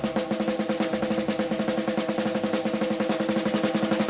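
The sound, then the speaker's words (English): A ratamacue rudiment is played on a drum as rapid, crisp stick strokes repeating in an even, driving pattern. Many sharp hits fall in quick succession at a constant tempo, with no voice over them. “Now, as you practice this, you'll get a little bit faster, and it would sound rat-a-ma-cue. You'd like to hear that on a drum, it would sound like this.”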